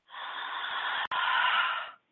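Slow breathing in and out, heard as one long, soft, airy rush lasting about two seconds with a tiny break near the middle. The breath is quiet and stands alone.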